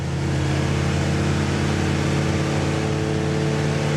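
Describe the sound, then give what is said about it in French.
A race car engine screams at high revs, about 6500 rpm in fourth and fifth gear, on the long straight of the Albi racing circuit, a loud, steady buzzing drone throughout. “Allez, la grande ligne droite du circuit d'Albi. 6500 tours. Quatrième. Cinquième.”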